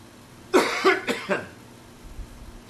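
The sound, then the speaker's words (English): A person with a returning cough coughs four times in quick succession, each one rough and throaty. Near-silence follows, broken only by faint movement. “I'm getting this cough back that I got rid of 2 weeks ago”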